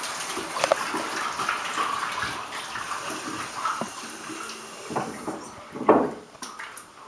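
Running water while hands are washed: an irregular splashing and gurgling stream at moderate level, broken by a few louder splashes near the end.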